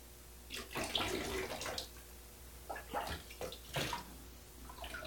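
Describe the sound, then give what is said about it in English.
Water splashes and pours as someone's back is washed, coming in a few uneven, splashy bursts with quiet gaps between them. No one speaks. “I always loved having my back washed. It's a little scratchy.”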